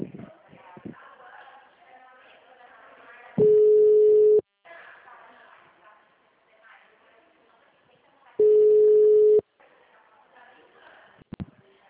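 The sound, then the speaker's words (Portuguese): A dropped phone call gives two long, identical low beeps about five seconds apart, loud and steady. Quieter talk and handling noise fill the gaps around them. “a ligação caiu”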